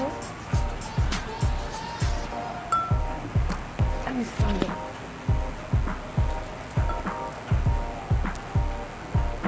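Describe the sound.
Mint leaves crushed in a glass to release flavor make a steady run of many dull pounding thumps with faint clinks, repeating at an even, quick rhythm.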